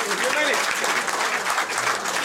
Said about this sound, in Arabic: تصفيق جماهير الرجاء بعد كلمة الزيات هي مؤشر ترحيبا لعودة